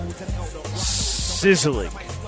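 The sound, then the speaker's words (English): Fajitas of premium black Angus beef sizzling on a hot skillet, a bright steady hiss that swells and holds for a moment, with a voice briefly cutting in over it. “Sizzling best fajitas in the Houston area.”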